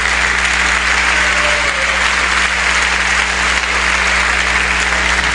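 Congregation applauding during a church service, dense and steady clapping that carries on without a break throughout.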